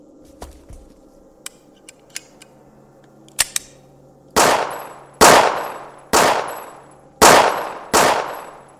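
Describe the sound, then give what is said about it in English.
Five loud gunshots from a weapon fired during a shooting drill, evenly spaced, each a sharp crack with a decaying tail. A few faint clicks come before them. “Then pick up your weapon and shoot.”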